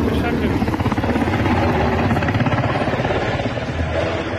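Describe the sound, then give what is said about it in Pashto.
Helicopter flying over Kabul: a loud, continuous rhythmic chopping of rotor blades over dense engine noise, holding steady throughout. “د کابل په فضا غنی هلیکوپټر ګرځي او ګمان کیږي چې د بیلابیلو سفارتونو بهرني ډیپلوماټان او د غشان بهرني ځواکونه د کابل هوایي ډګر ته انتقالوي.”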